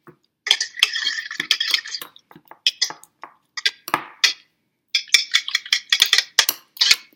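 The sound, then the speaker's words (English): A whisk mashes a food mixture in a bowl as it is prepared for microwave cooking, making many rapid, bright scraping clinks in irregular bursts separated by short pauses. “Maybe a whisk would be a good thing to mash this with, possibly. Maybe. I also think you can double peep, though, if you want. Oh, yeah, use a whisk to mash it. It's a lot faster.”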